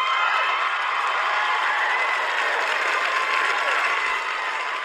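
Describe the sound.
Live studio audience applause during a hockey talk show: thick, continuous clapping at a steady, loud level for the full stretch, with crowd voices blended in.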